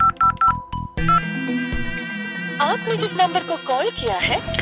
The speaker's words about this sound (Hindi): एक बार अर्जुन को फोन लगाकर पूछता हूँ कि कहाँ है वो दोनों।